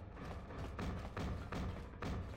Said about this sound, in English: Looks like someone's banging on a door. I don't know which door. Not the generator room door.